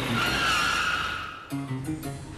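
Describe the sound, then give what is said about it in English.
Tires skid and squeal as a car brakes hard to a stop: a loud, sustained high screech for just over a second, then lower, rougher scraping sounds. “Stop the car.”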